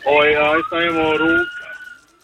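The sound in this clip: A police car siren wails loudly in two wavering, tonal bursts separated by a brief gap. A fading, lower tail trails off at the end.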